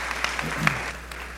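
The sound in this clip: A church audience applauds briefly to welcome a speaker coming up, a short burst of clapping with voices mixed in.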